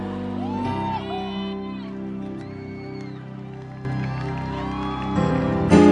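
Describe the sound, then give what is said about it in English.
A church audience claps and shouts praise to welcome the pastor, with cheers and whoops over sustained music that swell louder at the end. “Put your hands together, give the Lord a jump and a shout of praise, and welcome your pastor.”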